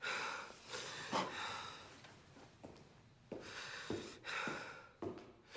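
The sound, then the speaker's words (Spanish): Agitated, heavy breathing from an old man in bed, a ragged run of many irregular breaths, some sharp and louder, others softer and drawn out, with no one speaking. “respira agitado”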